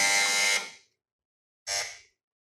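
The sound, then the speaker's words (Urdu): A quiz contestant's buzzer sounds twice, a harsh electronic buzz: first a longer blast, then after a short silence a briefer second buzz, both loud and alone. “سب سے پہلے buzzer بجایا ہے”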